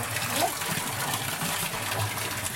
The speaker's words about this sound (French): Est-ce qu'il y a de l'eau qui sort? Ça marche!